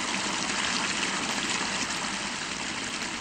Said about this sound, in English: Through the cracked open door, we spy steam rising from the bathtub as hot water pours from the faucet.